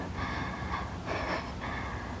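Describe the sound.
Heavy, out-of-breath breathing, three rough, airy breaths in quick succession, each a hissing burst with no voice in between.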